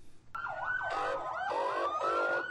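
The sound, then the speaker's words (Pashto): Ambulance and fire engine sirens sound in a city after a suicide bombing near a crowded market. Overlapping sirens start abruptly, with rapidly swooping wails layered over a slower steady tone. They are loud and there is no talk. “دا په کوټه ښار کې د تیر شپې د یو ځانمرګي برید ورسته د امبولانسونو او د اطفایې د ګاډو ژغ دی.”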